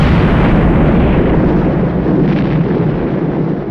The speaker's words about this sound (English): the red hot cannonball strikes the fort's storehouse of gunpowder. It explodes with a boom that shakes the earth.